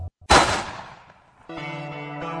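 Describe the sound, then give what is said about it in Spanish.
A single loud gunshot sound effect from a radio drama blasts out and echoes through a room, its ringing tail fading over about a second before a steady, droning tonal sound takes over. “Y un disparo enorme retumbó en la estancia y el cuerpo del teniente cayó abatido al suelo.”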